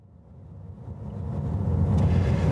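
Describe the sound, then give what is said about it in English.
A car drives along a closed road toward an ancient stone monument, producing a low, steady rumble that grows louder throughout. “I'm driving up to Stonehenge now. This road's been closed.”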